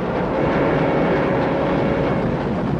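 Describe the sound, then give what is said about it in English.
A speeding train crossing the desert makes a steady, rumbling drone with a faint sustained tone running through it, holding an even loudness from start to finish. “A train travels across the desert.”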